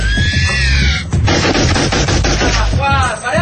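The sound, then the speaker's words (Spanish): Rapid gunfire as guns are emptied into fallen giant beetle creatures: many loud, sharp shots in quick succession, dense and harsh, embedded in a thick wash of other noise. “Siguen descargando sus armas sobre los cuerpos exánimes de los cascarudos.”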